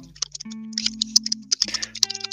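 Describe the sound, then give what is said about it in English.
Typing on a keyboard produces an irregular run of many light, quick clicks over a low sustained tone. “somebody typing?”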